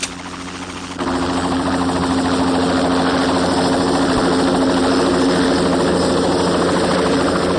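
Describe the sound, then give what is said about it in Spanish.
A helicopter landing near a restaurant: a loud, steady rotor and engine drone that steps up in level after about a second, then holds evenly throughout. “salen del restaurante y observan el helicóptero que aterriza cerca de ellos.”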